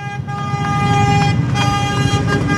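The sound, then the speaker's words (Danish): Tractor horns honk as tractors drive past a palace square during a farmers' demonstration against a fertilizer law. Sustained, overlapping horn tones sound over a steady engine rumble. “Og det, I kan høre lige nu, det er simpelthen traktorerne, der dytter, mens de kører forbi Christiansborg Slotsplads.”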